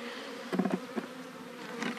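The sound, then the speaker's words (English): Honeybees buzzing around a caged queen bee: a steady insect hum with a few louder, fluttering bursts rising over it. “The bees can get at her and feed her.”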